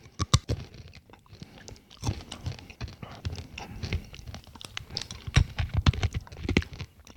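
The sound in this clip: Close chewing of crunchy roasted chickpeas with a crisp shell and floury inside, giving many irregular crisp crunches and softer mouth sounds at a fairly faint level, with no talking.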